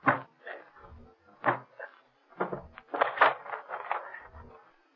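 Door being broken open as a radio drama effect: a few heavy wooden thuds and cracks, then a denser run of crashing, splintering blows, loud and with no talk over it.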